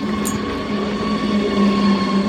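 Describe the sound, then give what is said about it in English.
A train at a nearby railway gives a steady, loud rolling rumble of rail cars with faint sustained tones. The sound is continuous throughout, with no voices. “At a railway nearby, we bump into commuters.”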